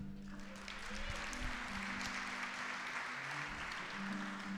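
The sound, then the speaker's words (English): A concert audience applauds the musicians with sustained, even clapping, and a low steady hum lies beneath the wash of hands. “You folks are really a nice audience. Give yourself a nice hand.”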